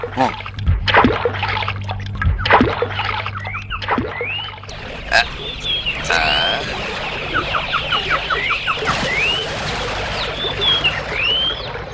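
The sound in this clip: A boat being brought to the riverbank in a creek: irregular wooden knocks and water splashes, mixed with clucking fowl and a run of high bird chirps.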